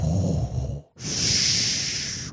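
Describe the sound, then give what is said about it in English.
A voice imitates heavy, mechanical respirator breathing: a low, rasping intake, a brief pause, then a long, loud hissing exhale that holds steady before cutting off. “you know he's coming when you hear his breathing. He's like,”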